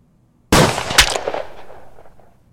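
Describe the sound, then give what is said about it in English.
A pistol shot: an abrupt, loud blast with a sharp second peak just after it, then a long tail that fades away slowly. “So she walks in purposefully, aims, and hits it right between the eyes with a shot from her pistol.”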